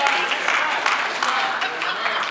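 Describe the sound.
An audience applauds during a sermon, a dense and steady wash of many hands clapping that stays loud and even for the whole stretch.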